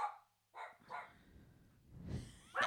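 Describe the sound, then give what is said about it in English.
A dog barks a few short, faint times, the barks spaced unevenly with quieter breathy noise between them. “oh my God, dog, shut up.”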